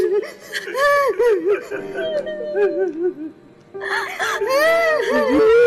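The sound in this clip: A woman cries with wavering, wailing sobs as she is reunited with her son after many years. Her high, shaking, voice-like cries rise and fall in uneven bursts and grow fuller toward the end.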